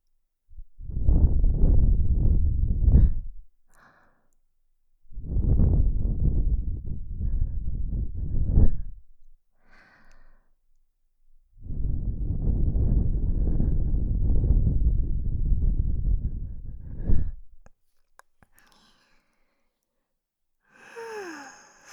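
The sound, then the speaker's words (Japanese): Breath blown gently into the ear in an ASMR setting: three long, soft, airy blows separated by pauses, followed by faint, quieter rustles. “よし、仕上げに息を吹きかけるね。”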